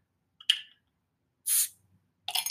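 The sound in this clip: Hissing gas escapes as a beer is popped open: three short, sharp spraying bursts, each separated by silence.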